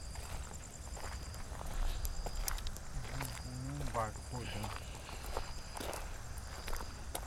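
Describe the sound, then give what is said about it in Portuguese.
Footsteps cross an outdoor yard near a bridge, a few soft irregular scuffs over a steady noise bed, with people talking quietly beneath them. “Daqui a gente está caminhando no meio do pátio”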